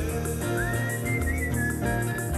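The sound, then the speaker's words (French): A cheerful tune is whistled in clear, sliding notes over a steady instrumental music backing, with no talking. “Siffler un air”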